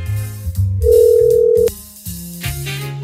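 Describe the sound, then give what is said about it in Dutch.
A telephone rings out as a call is placed from a Dutch radio show: one steady, sustained ringing tone lasts about a second and then cuts off, with other sounds continuing around it. “Ik ga eventjes kijken of ik iemand kan gaan bellen.”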